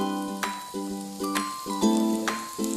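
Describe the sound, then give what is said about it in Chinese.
Food being stir-fried in a pan over raised heat, a steady sizzling hiss broken by a few sharp scrapes from the stirring. “继续翻炒，这个时候火稍微大一点。”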